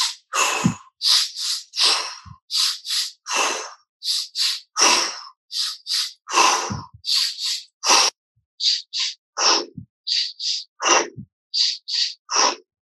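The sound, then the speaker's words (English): Sharp inhales and big exhales from a breathing exercise, repeated as many short, forceful, breathy bursts in a steady rhythm, with no talking. “Back to those sharp inhales. Big exhale out.”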